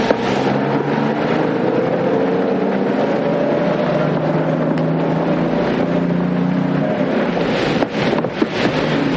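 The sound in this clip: A vehicle engine drones steadily as it sets off again, with a continuous low rumble and windy, rushing noise at an even level throughout.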